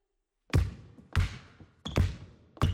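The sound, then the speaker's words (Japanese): A basketball is dribbled while walking forward. Four firm, hollow bounces fall at an even, unhurried pace, each a sharp thud with a short ringing decay, and no talk is heard. “それじゃ、今の一点集中を意識しつつ、少し前へ歩いてドリブルです。”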